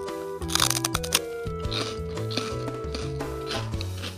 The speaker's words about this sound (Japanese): ちょっと大きめのせんべいかなって感じですけれども早速食べたいと思いますいただきます